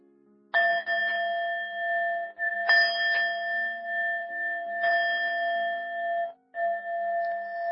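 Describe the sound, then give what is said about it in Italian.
Bells toll with a few slow, widely spaced strikes. Each one rings with a steady metallic tone that carries over into the next, with no voices present. “Rintoccano le campane.”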